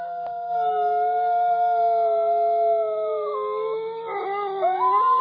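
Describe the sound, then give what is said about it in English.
Wolves howling: long, sustained, wavering tones that overlap in several voices over a steady low hum, with the pitch bending and one howl rising near the end. “I hear the wolves howling. I hear the wolves howling. Crank that thing up.”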